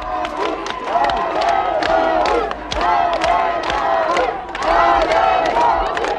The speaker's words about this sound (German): hier hört ihr die Streikenden bei Pierburg in einer Archivaufnahme von LaborNet